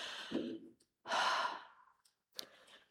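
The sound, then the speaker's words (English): Deep breaths taken on cue: three separate airy breath sounds, the middle one longest and loudest with a sighing quality, separated by short silences. “So, take a deep breath with me. Take another deep breath with me.”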